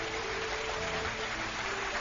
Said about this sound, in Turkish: Teşekkür ediyoruz güzel dizeleriniz için ve kocaman alkışlarımızı gönderiyoruz şairimize.